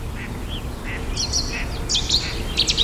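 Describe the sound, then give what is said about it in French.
A great tit sings repeated bright, high phrases in short bursts over steady low background noise, with a few softer, lower bird notes earlier on. “Mésange charbonnière.”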